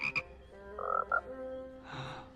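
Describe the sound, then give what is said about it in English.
Toads croak in several short, pitched bursts with buzzy overtones, one a quick double, ending with a longer, rougher croak. They are faint and heard alone. “With a puff of gray smoke, they turn to toads.”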